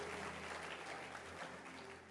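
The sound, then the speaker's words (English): An audience claps hands during a church service, giving dense, steady applause that runs through the whole stretch at an even, fairly soft level. “Clap your hands for Jesus.”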